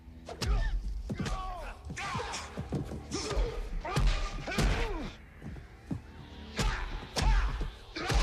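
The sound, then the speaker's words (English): Exaggerated punch-impact sound effects from a fistfight in the action film Action Jackson: many heavy thuds, smacks and whacks land in an irregular rapid series, with brief swishes between the blows. “when like dudes would fight in an action movie, there would be like these ridiculous ass sound effects for the impact of the hits, right? So listen to like this fight on Action Jackson back in the day.”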